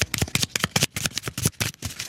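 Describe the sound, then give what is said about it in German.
Playing cards shuffled quickly for a game of Jass, many crisp, flapping riffles in a fast, steady rhythm, loud and with no talk. “Schnell mischen.”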